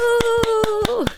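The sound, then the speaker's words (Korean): Crisp hand claps celebrating South Korea's 2-1 win in a first football match: five sharp, evenly spaced claps cut across a steady, held tonal sound that bends downward near the end. “박수!”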